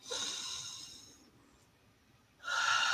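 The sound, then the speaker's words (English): A deep breath is drawn during a guided breathing exercise: a long, airy rush of breath at the start that fades into near silence, followed by another strong breathy whoosh at the end. “Take a deep inhale”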